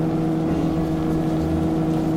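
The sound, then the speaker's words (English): Electric mole vehicle racing underground, heard as a steady, loud mechanical engine drone with a low hum. It keeps an even pitch and level throughout, with no talking. “Unaware of what has happened in the hiding place and racing underground toward the palace of Ming the Merciless in their electric mole, Prince Baron, Dr. Zarkov, and Flash Gordon”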